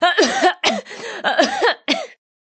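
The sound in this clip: A girl coughing and struggling for breath: a rapid series of raspy, strained coughs in several close bursts, with a voiced, pitched quality, ending abruptly in silence.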